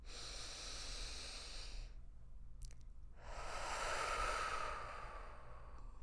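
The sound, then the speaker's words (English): A slow, deep breath during a guided relaxation exercise, heard as a long airy hiss that breaks off for about a second and then swells again, over a steady low hum. “I just want you to take a nice deep breath in.”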